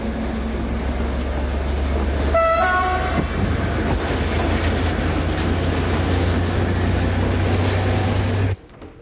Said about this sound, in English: As he switches on a table light, the train begins to pull out of the station.